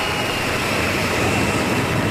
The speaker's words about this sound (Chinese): 从无到有，国产大飞机一飞冲天；